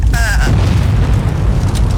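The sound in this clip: A volcano eruption sound effect gives a loud, steady, deep rumbling roar, with a short whistling tone near the start.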